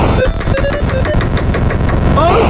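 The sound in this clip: Sounds from an old Atari video game: a loud, continuous buzzy electronic drone pulsing in a fast, steady rhythm, with a few short, high bleeps scattered over it.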